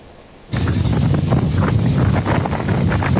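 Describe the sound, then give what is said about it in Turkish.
Strong wind over Küçükçekmece Lake in Istanbul, where a rowboat capsized. The wind hits the microphone suddenly after a quiet half second, then keeps up a loud, steady buffeting roar. “İstanbul Küçükçekmece Gölü'ndeki etkili rüzgar sebebiyle bir kayık alabora oldu.”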